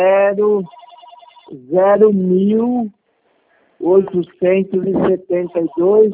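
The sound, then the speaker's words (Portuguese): A telephone rings once with a short electronic trill during a call about bank account details, sitting in a brief gap between stretches of conversational speech. “Deixa eu ver, eu só atender um telefone aqui, peraí.”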